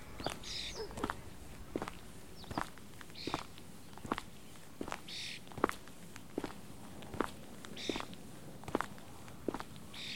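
Footsteps walking outdoors fall in a steady, even rhythm, a long run of soft, faint thuds with short crisp edges and no voices over them.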